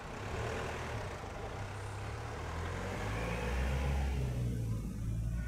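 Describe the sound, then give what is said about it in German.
An ambulance drives off to an emergency call, its engine giving a steady, low road rumble that stays even throughout, with no siren evident. “Wir fahren jetzt zum Südstrand in ein Hotel.”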